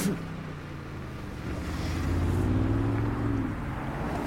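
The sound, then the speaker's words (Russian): A car drives past a group of men, a fairly faint low engine rumble and road noise that swells through the middle and eases slightly toward the end. “Машина проезжает мимо мужчин.”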